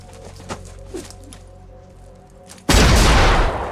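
A rifle shot: a single loud, sharp blast bursts out of a quiet background and rings on for about a second.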